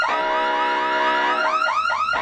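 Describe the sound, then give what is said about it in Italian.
An electronic alarm goes off, sounding as a false alarm, a loud warbling tone that pulses steadily before switching to a run of quick rising whoops, alone with no talk. “Cos'è questo? Ancora un altro allarme.”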